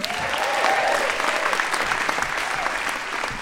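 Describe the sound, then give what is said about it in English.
An audience at a comedy show applauds as a stand-up comedian is introduced. The clapping is dense and continuous and stays loud throughout, easing slightly toward the end. “Please put your hands together and give a really warm welcome to the Brooklyn native, Tanael, Joachim.”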